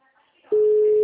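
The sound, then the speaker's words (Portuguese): Outgoing phone call ringing: after a faint, near-quiet start, a steady, loud, unbroken electronic tone begins about halfway through and holds to the end. “Eu tô ligando pro cara que falou que o dinheiro ajuda ele, mas não me responde.”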